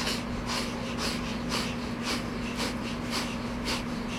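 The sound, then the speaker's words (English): Kundalini yoga breath of fire: rapid, forceful breaths in and out through the nose while the navel pumps. Many short, airy nasal puffs repeat in an even rhythm of about two per second, fairly faint over a low constant hum. “breath of fire is one of the most basic exercises in Kundalini, basic breathing techniques in Kundalini yoga. It's a rapid inhale and exhale through the nose, and we pump the navel as we do it. It sounds like this.”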